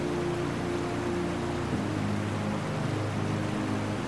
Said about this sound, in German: Das Wasser zwängt sich zwischen dunkle Felsen und schießt dann durch die enge Schlucht, von der es anschließend in die Tiefe stürzt.